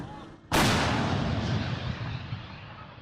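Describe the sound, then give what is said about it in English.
A tank cannon fires a single loud blast at enemy positions. The sharp, sudden report is followed by a long rolling rumble that slowly fades over the following seconds. “A minute later, a second blast. So the tank has moved into its operating position. We understand that they are firing at Russian positions about 3 kilometers from here.”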